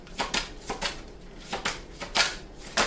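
A deck of tarot cards being shuffled: many quick, papery snaps and riffling bursts come at an uneven rhythm, fairly faint, with no talk.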